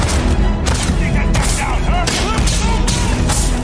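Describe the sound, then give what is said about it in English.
Shotgun fire in a sci-fi first-person shooter video game: several loud, sharp blasts stand out from dense, continuous game noise. “the shooting looks solid. Shotgunning.”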